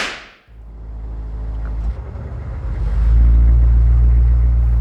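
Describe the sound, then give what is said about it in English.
Deep, low rumble of an 8-litre V8 Humvee engine, steady and growing louder partway through. A sharp whooshing sweep is heard at the very start. “could you see yourself driving this to work every day? Too right, an 8-litre V8 Humvee as a ministerial car”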